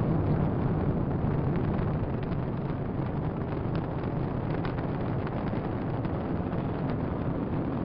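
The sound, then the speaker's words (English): Liftoff of a SpaceX Falcon 9 rocket launching a Dragon cargo spacecraft to the International Space Station: a loud, steady, crackling low roar that rumbles on without a break throughout. “And liftoff. Liftoff of the SpaceX Falcon 9 rocket, launching Dragon to the International Space Station”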